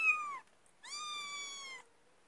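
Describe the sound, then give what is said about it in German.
A cat meows twice, clearly and alone. The first meow is short, and the second is longer and drawn out, with a brief silence between them. “Nicht die Katze hier rein, das ist nichts. Das mag ich jetzt nicht. Nimm sie mal weg. Stört.”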